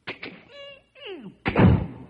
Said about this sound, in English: Opens the front door. Like the door? You want to do it again? Well, yeah, okay. This time with a squeak.